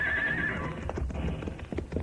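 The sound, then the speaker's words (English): Horses gallop toward a jump over a gully: a high-pitched whinny at the start gives way to steady, rapid hoofbeats, with no voices. “We cannot, but I think our horses can.”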